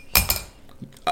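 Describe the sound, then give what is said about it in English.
A coin is flipped and lands, giving a few sharp metallic clinks: two quick bright strikes, then another clink after a short quiet pause. “Okay, let's flip the coin and see who's going to do what.”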